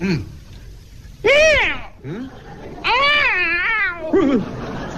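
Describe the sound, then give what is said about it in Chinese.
A voice imitates a cat yowling after its tail is stepped on, giving several loud, wailing cries that rise and fall in pitch, with short gaps between them. “这是 踩猫尾巴了。 嗨，看着点脚底下。”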